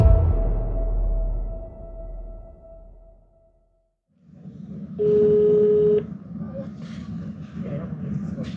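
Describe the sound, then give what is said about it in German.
A telephone line tone during a call placed from a hotel: one steady, bright tone lasting about a second, after speech and against a continuous low background rumble. “Ein Anruf bei Sigrid Prada. Auch sie ist eine waschechte Hallstätterin. Wir rufen sie aus unserem Hotel an.”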